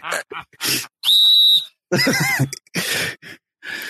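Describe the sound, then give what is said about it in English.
A whistle blown as a signal for going out of boundaries gives one sustained, shrill blast held at a steady high pitch for about half a second, set among short bursts of other sounds and voices. “usually he gets this whistle blown at least 2 to 3 times a pop”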